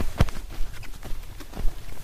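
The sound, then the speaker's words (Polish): Footsteps trudging through dry, fine sand on heathland dunes. A few soft, scuffing, crunchy steps come one after another, with one sharper thump near the start. “Pod butami mamy suchy, drobny piasek, który tak działa, że my idziemy do przodu, a on przesuwa nasze stopy do tyłu.”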